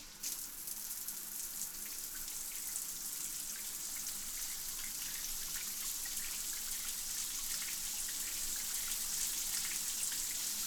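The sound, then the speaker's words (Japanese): Water rinses over a head during a bath-time scalp massage, making a steady, even rushing hiss that runs through the whole clip without talk. “最後に全体を流しますね。”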